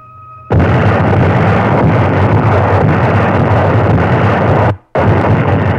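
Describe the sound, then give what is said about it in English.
Allied artillery guns fire at night along the front in Italy, forming a loud, dense, unbroken roar that starts abruptly, cuts out briefly near the end, then resumes. “All along the front, German-dominated heights were under the muzzles of Allied guns. At 11 p.m., they went into action.”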